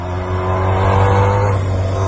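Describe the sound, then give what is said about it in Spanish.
Engine roar from a Toyota Hilux rally car with a non-hybrid V8 of about 400 horsepower, running flat out in training: a loud, steady, throaty drone with a low hum throughout. “Ayer volvió a entrenar a toda pastilla esa velocidad que estáis viendo pasar Fernando Alonso en su Toyota Hilux.”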